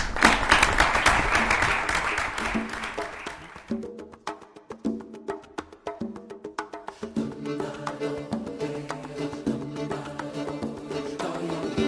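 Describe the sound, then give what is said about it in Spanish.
Audience applause at a gastronomy-days event: a dense burst of many claps for a few seconds that gives way to music with percussive beats carrying on to the end. “y pido un aplauso para él.”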